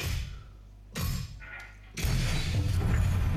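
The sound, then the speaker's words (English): Electronic sound effects from the Galaga AR augmented reality video game: a low hum broken by a few short noisy bursts and a brief tonal sweep, then a loud, dense crash-like stretch that fills the final second and a half. “This is Galaga AR.”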